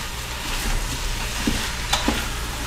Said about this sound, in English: Okay, so you can see I'm sautéing all the lamb in there.